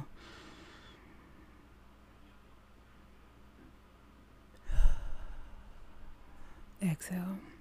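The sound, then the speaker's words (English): A deep breath drawn in and let out during a guided meditation chant, heard as soft airy breath noise. One louder rushing breath comes midway, with a quieter breathy sound after it, against a hushed background. “Inhale.”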